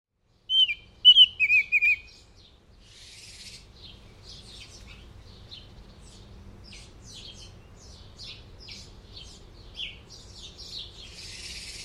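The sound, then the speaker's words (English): A hairy woodpecker gives a few sharp, high calls in quick succession. Fainter chirps and twitters from other birds follow over a low, steady background rumble. “Hairy woodpecker.”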